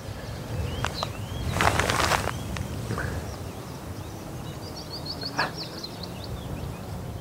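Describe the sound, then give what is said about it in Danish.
A Eurasian blackcap sings outdoors in spring, a brief, faint burst of quick high warbling chirps over a rustling, noisy background, with a few scattered thumps and rustles heard earlier. “Åh, oh. Der var en munk, kom der.”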